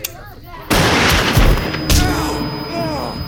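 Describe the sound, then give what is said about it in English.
A gunshot rings out as a loud sudden blast with a roaring, echoing tail, followed by a second sharp report about a second later, with a voice faintly audible before the shots. “See, the difference between you and me is I don't do warning shots.”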